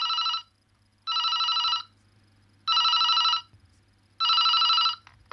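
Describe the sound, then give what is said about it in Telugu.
A telephone bell rings four times in a house as a call comes in. Each ring is a steady, bright buzzing burst of under a second, separated by short gaps, over a faint low hum. “ఇదిగో hello, ఆయన గారిది ఈ phone call.”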